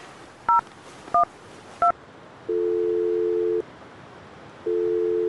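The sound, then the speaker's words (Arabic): Telephone number being dialed on a keypad: three short, evenly spaced dialing beeps, then two long steady tones separated by a pause, over faint hiss. “أنا هتصل بزوجتي ميمونة وأسألها عن اسم المدرسة. اتصل بها جوجل.”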